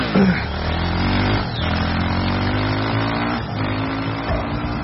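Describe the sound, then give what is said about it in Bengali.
Motorbike speeding down a hill, its engine a loud sustained drone with strong steady harmonics, dipping briefly twice before surging back to full roar. “বাইকে উঠে তীব্র গতিতে নিচে নেমে গেল”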